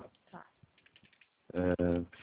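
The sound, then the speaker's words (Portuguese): Typing on a computer keyboard while bank account details are being entered, a few soft, scattered clicks and taps followed by a person speaking. “É do Banco C6, isso que você disse? Isso, Banco C6 que eu tô digitando.”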